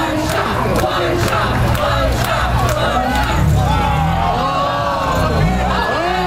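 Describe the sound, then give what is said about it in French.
Hundreds of spectators at a street competition in Philadelphia, heard as a dense, continuous hubbub of shouts, whoops and cheers that surges at times and never drops away. “Le son d'une compétition inédite. On est à Philadelphie. Eh oui, pour la première fois samedi dernier, 15 concurrents se sont affrontés dans les rues de Philadelphie devant des centaines de spectateurs”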